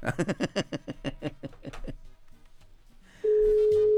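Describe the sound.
A telephone ring tone on an outgoing call: after a series of quick, uneven pulses, a steady mid-pitched tone starts near the end and holds.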